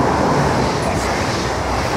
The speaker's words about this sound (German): Während hinter ihnen ein ICE vorbeidüst.